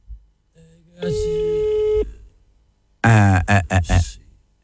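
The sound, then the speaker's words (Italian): A steady electronic telephone line tone while a phone number is being dialed, holding flat for about a second. A few short, harmonically rich bursts follow after a brief gap. “Mentre faccio il numero di telefono, ok?”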